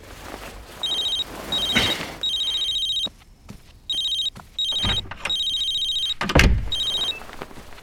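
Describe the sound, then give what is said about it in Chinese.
A telephone rings early in the morning in repeated bursts of a high, steady electronic trill separated by short gaps, with a few dull thumps in between; no one speaks. “我去外面接个电话”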